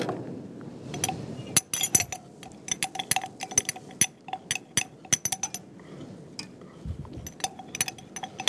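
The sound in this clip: A spoon gently stirring salt and flour, making many light metallic clinks and taps in an irregular rhythm over a soft scraping background, with no talk.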